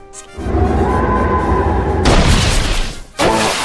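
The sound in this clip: A Wind Force attack effect in a turn-based video game battle, a loud rushing, booming roar that swells sharply partway through, drops briefly, then bursts back in.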